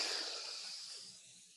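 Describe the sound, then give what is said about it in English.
A group of people takes a long, deep breath together, a soft airy hiss that starts full and slowly fades away over about a second and a half. “Everyone listening, deep breath on with us right now. Ready? One, two.”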